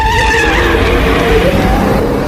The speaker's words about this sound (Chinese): 廖飞说完开着摩托走了。